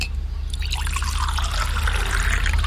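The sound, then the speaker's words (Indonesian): Tea being poured from a pot into a cup for a guest: a steady liquid trickle and splash that starts after about half a second and runs unbroken to the end, moderately loud over a low steady hum. “Saya buatkan teh untuk abang ya.”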